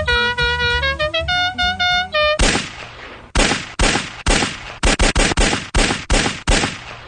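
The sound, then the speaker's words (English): A gunshot sound effect: a short melodic tone sequence gives way to many loud, sharp blasts with brief decaying tails, firing in an uneven, quickening series. “That is some high-quality sound effects right there. Yeah. That was very convincing gun sound effect.”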